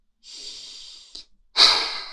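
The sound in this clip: Deep breathing from a person seated among flowers: one long, steady inhale, a brief sniff, then a louder, forceful exhale that trails off, with no talking.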